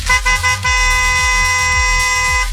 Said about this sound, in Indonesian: Klakson panjang.